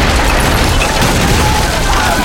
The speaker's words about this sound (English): An 8-foot-thick section of granite, lead, and reinforced concrete erupted into the hall.